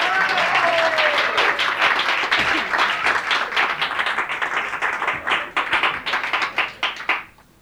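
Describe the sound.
Enthusiastic audience applause at a live concert: dense, steady clapping that gradually thins into scattered individual claps before fading out at the end.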